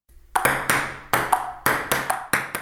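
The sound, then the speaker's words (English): Ping pong ball bouncing in a table tennis rally: many crisp, bright clicks at an uneven pace, each with a short ringing tail, heard alone without talk. “That sound is... Ping pong!”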